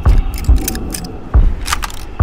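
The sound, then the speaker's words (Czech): A door opens with a few sharp, clicky latch-like sounds and dull low thumps, a light metallic rattle between them. “Dveře se otevřou.”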